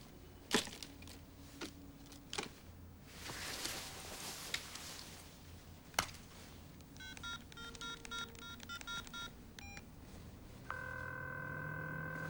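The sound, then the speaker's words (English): Keypad tones sound as a number from a plastic phone card is dialed on a mobile phone. A quick run of many short, two-pitched beeps follows a few sharp clicks, then a steady line tone holds to the end. “The middle-aged man picks one out of the case and dials the number on the back from his mobile.”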